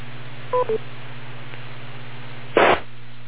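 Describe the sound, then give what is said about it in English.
A radio repeater's newly changed courtesy tone: two quick electronic beeps over steady hum and static, followed about two seconds later by a short, loud burst of rushing hiss. “Okay, it's got a new courtesy tone, it seems.”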